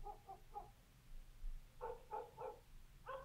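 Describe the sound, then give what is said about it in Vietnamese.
Dogs barking at houses around a neighbourhood, faint and quiet: a short run of a few barks, a pause, then another cluster of quick barks followed by one more bark. “Cùng lúc đó, tiếng chó của mấy nhà dân ở xung quanh sủa lên nhấm nha nhấm nhặng.”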